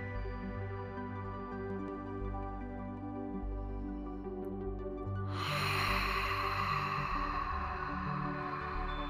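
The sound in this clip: A big, bold exhale rushes out as a long breathy hiss over a sustained, calm musical drone, arriving about halfway through and continuing to the end.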